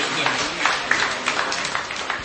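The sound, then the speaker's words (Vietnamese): A church audience applauds during a Vietnamese-language service. The clapping forms a steady, moderately loud wash of patter with a few slightly sharper claps poking through, holding evenly from start to finish. “Rồi, một tràng pháo tay nữa thưa anh chị em và thưa các bạn.”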